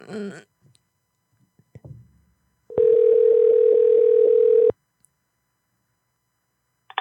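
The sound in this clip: Telephone dial tone while placing a call to a tractor dealership: a steady, unbroken mid-pitched tone lasting about two seconds that stops abruptly, preceded by a faint voice and a few soft clicks.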